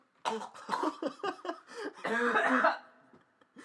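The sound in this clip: Someone coughing while choking on their own spit: a rapid run of harsh, sputtering bursts ending in a longer rasping strain, moderately loud.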